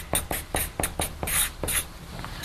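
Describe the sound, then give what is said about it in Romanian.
Handwriting scratches from someone writing by hand: many short, dry strokes in an uneven rhythm, fairly quiet, with no talking. “aș putea să scriu aici ca să fie, să rămână scrisă, da?”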